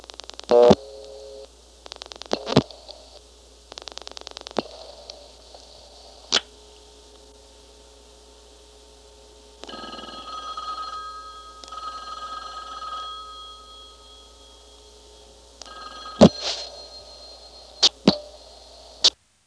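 Rotary dialing of 7-5-9 on a party-line telephone circuit: three quick bursts of dial clicks, then a click on the line and a warbling ringing signal in separate bursts with pauses between them.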